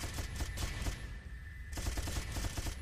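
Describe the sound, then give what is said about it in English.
Rapid video-game gunfire while shooting at rockets crackles in dense, fast bursts, breaks off for a brief quieter gap midway, then resumes at the same busy rate. “Shooting at rockets. They want to kill me. I do not want them to kill me.”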